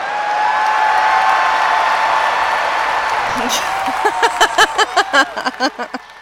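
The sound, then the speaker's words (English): A recording of a stadium of about 50,000 people cheering plays as a broad, steady roar. Voices then begin talking over it near the end. “sound recording of like a stadium full of 50,000 people cheering that I could play when I ran into the stadium so that it's in my ears and I feel like I'm being cheered by a full stadium, then maybe. You mean like this one?”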